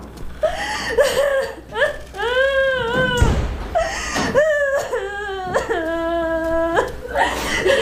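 A woman crying and sobbing in distress, with loud, quavering wails that rise and fall in pitch, broken by gasping sobs and catches of breath, continuing almost without pause.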